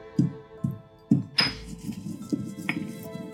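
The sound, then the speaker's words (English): Spoon scraping and clinking against a bowl as a chocolate mixture with a splash of alcohol is stirred: a few sharp knocks at irregular intervals over a steady low hum. “Now keep mixing.”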